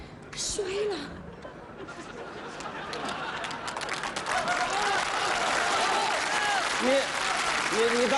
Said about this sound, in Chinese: 都鼓了掌了。